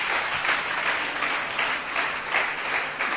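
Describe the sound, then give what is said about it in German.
Congregation clapping during a church service: a continuous bed of many hands that swells and eases a few times, moderately quiet and free of speech. “Lass uns den Herrn, für den Herrn klatschen.”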